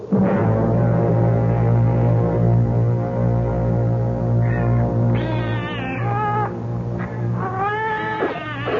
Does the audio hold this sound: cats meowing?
yes